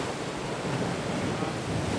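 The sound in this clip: Sea waves wash onto a crowded Adriatic island beach with rocks and a grotto, making a steady, dense rush of surf with no clear breaks. Wind noise blends in, and no separate voices stand out.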